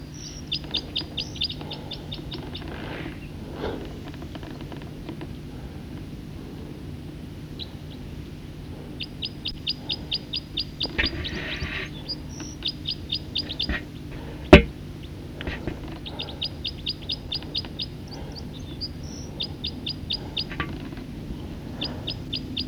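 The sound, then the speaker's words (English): A single bird sings in many short, high chirping phrases repeated at irregular intervals over a faint low background hum, broken once by a sharp click. “recording song of a bird.”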